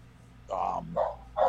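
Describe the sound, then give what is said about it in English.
A dog barks three times in quick succession, short mid-pitched yaps spaced roughly half a second apart, fairly faint against a low steady background hum. “I'm sorry about my dog.”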